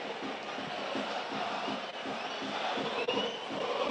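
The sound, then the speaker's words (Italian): Bologna football fans celebrate in a stadium with a loud, sustained crowd roar, rhythmic chanting and cheering running steadily throughout. “Fanno festa i tifosi del Bologna.”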